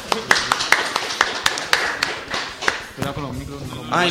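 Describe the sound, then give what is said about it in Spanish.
Studio audience applause during a vintage-show World Cup special: sharp, fairly regular hand claps at a brisk, even pace. A person then starts talking near the end. “Venga, aquí, por favor, un aplauso.”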